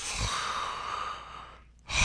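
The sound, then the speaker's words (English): A man's voice imitates a big, deep breath: a long, loud, airy rush of breath that fades out over about a second and a half. It ends with a short, sharp breathy burst. “He would always like do this big breath before he would answer any question.”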